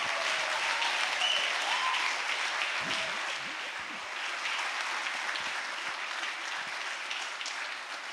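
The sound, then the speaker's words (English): Church audience applause welcoming a pastor to the platform, a sustained roar of many hands clapping, slightly easing in level partway through but continuing to the end. “So let's put our hands together.”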